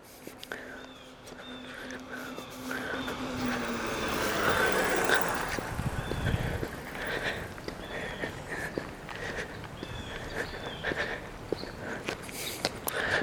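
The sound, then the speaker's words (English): Footsteps fall along an outdoor walking trail in a city while cars pass nearby. A low traffic rumble swells and fades around the middle, with light, regular steps over the steady background. “I'm on a walking trail in my city.”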